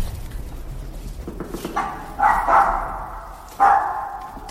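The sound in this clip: A dog barks a few times, with short sharp barks spaced out over a steady low rumble of background noise.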